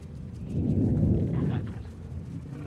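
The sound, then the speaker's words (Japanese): Deep, rolling thunder rumbles low and heavy, swelling about half a second in, then slowly easing off and fading, with no voices. “これただの雷の音だぜ。ほら聞こえる。”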